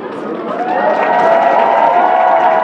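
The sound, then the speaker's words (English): Audience clapping hands at a concert: dense, continuous applause mixed with crowd noise, steady and loud for the whole clip. “Clap your hands.”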